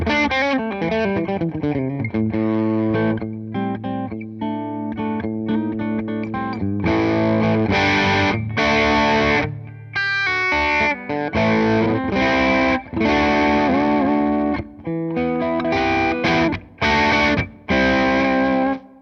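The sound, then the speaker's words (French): Electric guitar through a Sweet Leo boost pedal into the crunchy clean channel of an amp, growl control at zero: loud strummed chords and melodic single-note lines that ring continuously, broken by brief gaps near the end. “Ça crunch hein, le son clair de l'ampli. Et il y a un réglage particulier qui est un réglage de growl qui était là à zéro. Ça épaissit le son pour presque le faire fuzzer.”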